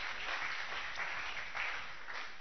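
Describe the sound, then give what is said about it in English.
A church audience claps their hands during a sermon, producing a quiet, dense patter of many palms that stays steady and unbroken from start to finish. “Clap your two hands if you like that one.”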